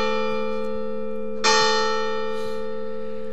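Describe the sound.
A church bell rings out with one strong strike midway, its bright metallic partials swelling over the steady hum of earlier strokes still ringing, then slowly fading.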